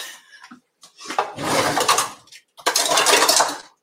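A spatula cuts and scrapes through an apple pie in a dish, producing two long, gritty scraping passes with soft clinks, preceded by a brief faint clatter.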